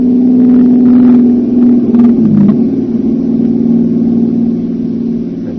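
A car approaches fast and passes at night with its headlights on. Its loud, mid-pitched engine rumble dips in pitch about halfway through as it goes by, then eases slightly toward the end, with no voices.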